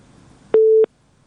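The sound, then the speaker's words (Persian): A telephone busy tone after a call is cut off, a single steady mid-pitched beep lasting about a third of a second, sounding alone, with near silence afterwards. “متاسفانه که تماس شکریه جون، فکر کنم قطع شده و امید که دوباره تماس بگیرن.”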